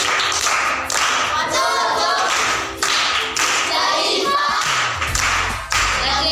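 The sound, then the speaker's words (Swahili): Children at a primary school clap together after a classmate answers a riddle, a brisk, patterned clapping rhythm that keeps going for several seconds, with young voices calling out over it. “Amepata, amekosa? Amepata. Makofi kwa mjomba.”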